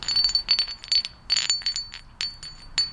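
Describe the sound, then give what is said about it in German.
Flint stones struck together by hand, giving many sharp, bright clicks in an irregular rhythm, each with a thin high ring that barely lingers. No voices are heard. “Und die klingen zum Beispiel auch ganz unterschiedlich. Manche, die klingen kaum, wenn man sie aneinander schlägt. Oder andere wiederum. Hier habe ich ein Stück gefunden.”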